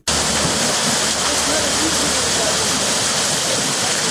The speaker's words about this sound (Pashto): د نورګل ولسوالۍ اړوند د کانډۍ کلي کې د ارهټ په وسیله له ویلې اوبه پورته کیږي